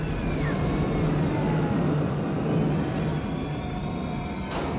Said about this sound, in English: He watches as an aircraft hovers in front of him, then rises up and, retracting its wings, flies into an enormous hangar.